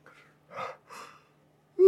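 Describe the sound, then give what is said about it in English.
A person imitates a lion's yawn with breathy, gasping exhalations: a faint opening breath, then two stronger airy bursts, ending on a sudden louder voiced sound. “And honestly, even in a zoo, they'll go. And that's because yawning in social creatures is a trigger.”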